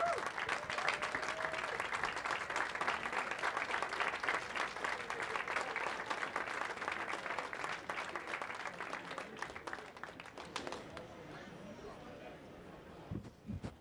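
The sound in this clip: Audience applause welcomes the moderator and guest onto the stage at a live special evening event. The clapping is dense and sustained for about eleven seconds, then thins and tapers off.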